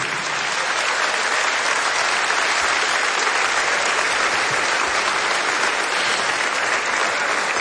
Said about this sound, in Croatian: aplauz za najbolji orkestar na Istri i Kvarneru, Čisti luksuz.